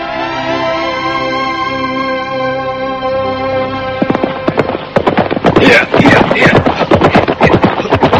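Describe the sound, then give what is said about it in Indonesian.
Hooves of a ridden horse galloping hard into a training ground at dusk: a long sustained tone gives way to a rapid, loud, irregular drumming of hoofbeats that builds and keeps going. “nampak sesosok penunggang kuda terburu-buru memacu tunggangannya memasuki area pusat pendidikan calon tanda.”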